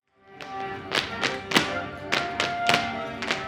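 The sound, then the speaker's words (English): Thuds and taps of feet from a dance rehearsal in a studio for a play's Pittsburgh premiere: many sharp, irregular impacts land in quick succession, with faint ringing between them. “That's the sound of rehearsal for the Pittsburgh premiere of Dance Nation.”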